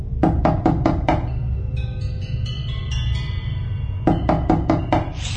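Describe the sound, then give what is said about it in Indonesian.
Knocking on a bedroom door comes in two quick series of sharp raps separated by a pause of several seconds, loud and with no talking. “Tak lama setelah ku matikan handphoneku itu, ada yang mengetuk pintu kamarku.”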